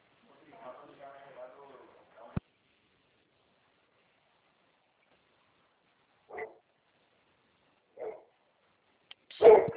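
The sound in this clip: A dog barking indoors during a phone call, with a few short, separate barks spaced well apart against near silence, the last the loudest, after a brief stretch of murmuring sound and a sharp click.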